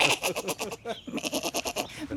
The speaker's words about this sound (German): Es hat eine lustige Sprache, ja, so eine kleine Ziege. So klein und schon so meckerig.